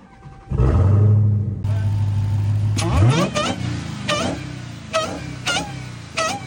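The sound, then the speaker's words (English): A Dodge Hellcat's 6.2-litre supercharged V8 with a B-Woody intake cranks and fires with a loud burst, then settles into a deep, rumbling idle. Several sharp throttle blips follow, each with a rising, whining supercharger note. “We got the big 6.2 supercharged V8 right here. And we got a B-Woody intake on. So let's go ahead and crank it up and see how it sounds.”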